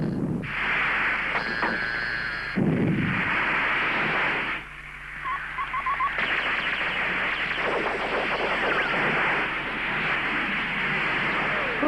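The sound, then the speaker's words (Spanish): Miniature tiger rockets firing in a 1983 action film, a sustained broad hissing roar that shifts abruptly a few times and carries faint crackles throughout. “Son mis cohetes tigre. Tienen las características de los cohetes de tamaño natural. ¿Es que funcionan? No los he probado.”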